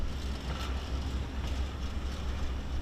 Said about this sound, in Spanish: El tren avanza junto a zonas residenciales destruidas. Corre solo a unos 30 kilómetros por hora, pero no se detiene.